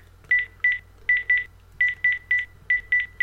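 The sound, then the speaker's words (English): Touch-tone keypad beeps from a portable phone dialing a number to call an iPhone: ten short, bright tones in uneven groups of one, two and three, each group separated by brief gaps. “Let me ring my iPhone, which will then also cause my Apple Watch to ring, of course, and I can answer the incoming call from my Apple Watch. Dialing the phone number now”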